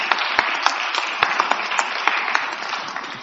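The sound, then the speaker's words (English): Congregation clapping hands in praise during a church service, a dense steady applause with sharp individual claps standing out, lasting throughout with faint voices mixed in. “Let's give God a hand clap of praise”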